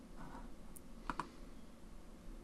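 A mouse click on a Close button: two quick, crisp clicks close together, alone over a faint steady background hiss.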